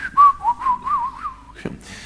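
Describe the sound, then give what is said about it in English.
A person whistles a short, cheerful tune of wavering mid-pitched notes, alone, followed at the end by a brief thud and a soft hiss. “Just whistle a happy tune.”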